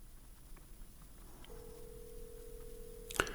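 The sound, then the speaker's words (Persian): A telephone call being dialled and connected: faint line hiss, then a steady single-pitched tone lasting about two seconds, cut off by a sharp click near the end. “کوشش میکنیم تماس ما برقرار شود”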